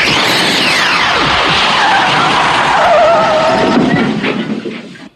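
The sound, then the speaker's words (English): Film sound effect of a license plate spinning on the ground just after a time-traveling car vanishes: a loud, dense whooshing, skidding roar laced with sweeping whirring tones, steady for several seconds before fading out. “It is the license plate spinning around immediately after it goes back in time.”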